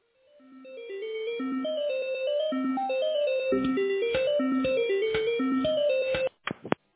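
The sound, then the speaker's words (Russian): Electronic hold melody on a telephone line while a call is transferred to a specialist: a simple tune of clean, steady notes, joined partway by a rhythmic beat, ending with a few sharp clicks. “Оставайтесь, пожалуйста, на линии, ваш звонок переводится на специалиста.”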